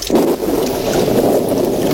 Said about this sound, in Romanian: Ia, asta mai lipsea. A început să plouă.